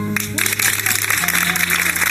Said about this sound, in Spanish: recibían y agradecían así las ovaciones. Queríamos daros las gracias de alguna forma a todos los profesionales que estamos hoy de guardia. Hoy el aplauso es para vosotros.